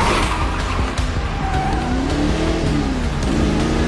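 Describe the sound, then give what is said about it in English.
A car drifts into a turn on a city street lined with parked cars and buildings: a steady, loud engine roar with a thin, wavering squeal of tires running over it throughout. “The car passes parked cars and buildings. On one overhead saloon, the car drifts into a turn.”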